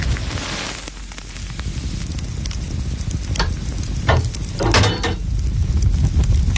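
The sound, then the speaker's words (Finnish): A sauna stove heats up with a steady, dense crackle and hiss, broken by occasional sharper pops, and no one talking. “Sieltä se lämpiää. Lempeä löylyinen saunan kiuas.”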